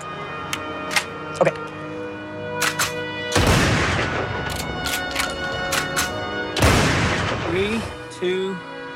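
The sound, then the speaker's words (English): A double-barrel gun fires two loud salute shots a few seconds apart. Each shot is a sharp boom with a long rumbling tail, surrounded by scattered clicks and brief voices. “A gun salute. Sorry. One second. That's a double barrel.”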